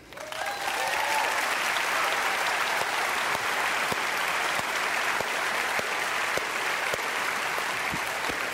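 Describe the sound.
An audience applauds steadily to welcome two guests to a conversation on race, racism and faith. The dense clapping rises quickly and holds at an even level throughout.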